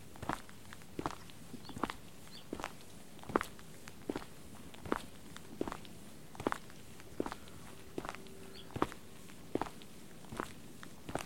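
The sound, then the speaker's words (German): Footsteps walk steadily along a path between low borders, many even, crisp treads in a regular rhythm that sit alone over a faint, quiet background. “Wir gehen weiter geradeaus, zwischen den niedrigen Wegbegrenzungen hindurch, direkt auf einen Baum zu.”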